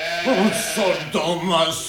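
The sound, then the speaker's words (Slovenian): Goat bleating in a few wavering, nasal cries with shaky pitch, fairly loud and following one another with short gaps. “Pa še tega kozla bom vrgu ven, je glihta.”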